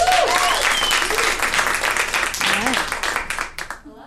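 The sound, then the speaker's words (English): Audience applause greets a speaker coming on stage: a dense, steady wash of clapping with a few shouts and cheers mixed in, loud at first and thinning out toward the end. “Put your hands together for Nicolette Daskalakis.”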